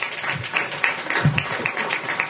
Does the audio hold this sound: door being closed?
no